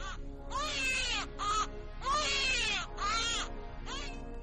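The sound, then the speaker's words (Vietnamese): A doll gives off a baby's crying, loud wailing bursts with a quivering pitch broken by short gaps, rising and falling in repeated sobs against quiet. “mắt nó phát ra tiếng trẻ con khóc oe oe ở giữa không gian tĩnh lặng, làm cho Vũ”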